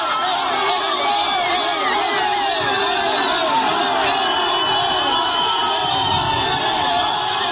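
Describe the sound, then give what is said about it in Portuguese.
Football fans roar and cheer in celebration as Neymar is named to the national team's 26-player squad. The loud, unbroken crowd din is full of shouts and whoops from start to finish. “pode acompanhar o momento da convocação do Neymar, inclusive pouquinho antes, já tem um início de celebração por torcedores. A gente vai subir até o som, porque acho que é autoexplicativo.”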